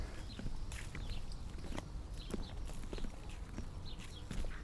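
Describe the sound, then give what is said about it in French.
Footsteps of a person walking along railway tracks, faint and quiet: a steady series of many soft crunching steps in an even, unhurried rhythm. “Ça fait une bonne heure que je marche. J'avance désormais à mon rythme. Je prends mon temps. Et je suis dispo à tout. On peut réfléchir en marchant sur ces rails.”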